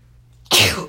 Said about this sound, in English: On occasion, you may sneeze. So what?